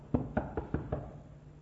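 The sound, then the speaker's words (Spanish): Knocking on a door: five quick, evenly spaced raps, each sharp and fairly loud, followed by a short quiet tail. “llama a la puerta”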